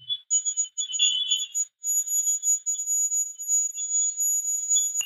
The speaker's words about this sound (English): And I think the reason that I kept that clip is there aren't any EVPs or anything on the spirit box, but the temperature gauge does sound like Morse code.